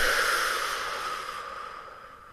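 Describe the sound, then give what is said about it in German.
A long breath out, an airy hiss that slowly fades over about two seconds, from a guided relaxation exercise of breathing in through the nose and out through the mouth. “jetzt möchte ich, dass du einmal mit mir gemeinsam durchatmest, durch die Nase ein, durch den Mund aus und ausatmen.”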